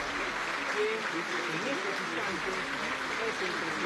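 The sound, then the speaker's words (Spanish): Applause in a parliament chamber as president-elect Keiko Fujimori is received, a continuous steady patter of clapping heard beneath a voice talking over it. “en estos momentos la presidenta electa Keiko Fujimori es recibida entre aplausos”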